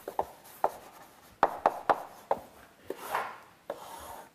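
Marker or chalk strokes as a graph is sketched on a board during a calculus lecture. Many short, faint scratchy taps and rubs come in an irregular rhythm, with no talking over them.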